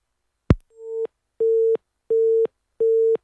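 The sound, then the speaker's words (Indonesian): Telephone busy signal after a call to a field reporter is cut off: a sharp click, then four evenly spaced beeps of a steady mid-pitched tone, the first swelling in. “Iya, terputus ini dengan rekan reporter Anton Lahaube, dan tentunya tim kami masih, Wow Sri akan kembali menghubungi rekan Anton karena memang belum selesai ini”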